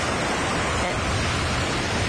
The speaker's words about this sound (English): what we do need is a bit of ambiance. So let's transport ourselves to the sea.